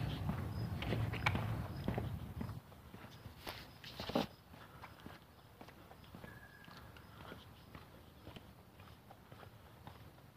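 Footsteps of a person walking outdoors, many steady, evenly paced steps that are louder over the first couple of seconds and then continue more softly.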